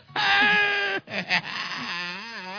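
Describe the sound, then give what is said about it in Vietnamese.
A man cries out in the street with a long, loud wailing sob, then after a brief gap breaks into a quivering, wavering moan that rises and falls in pitch. “Ba làm gì vậy? Sao là ba khóc? Thôi nín đi ba ơi”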